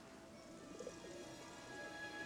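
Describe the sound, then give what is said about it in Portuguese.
Soft cooing of pigeons, a few faint, low coos over a steady background hiss. “Os pombos vão voltar pra cá sozinhos? Ou vai ter que chamar eles?”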